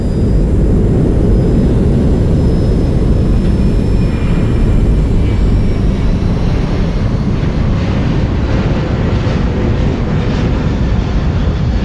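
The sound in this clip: An airplane engine drones during a flight: a steady, loud, low roar with broad hiss on top, unchanging in level from start to finish, with no voices.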